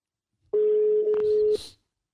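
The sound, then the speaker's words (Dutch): Telephone call being dialed: a single steady tone lasting about a second, followed by a few brief clicks and a short burst of noise. “Dus we gaan hem even bellen.”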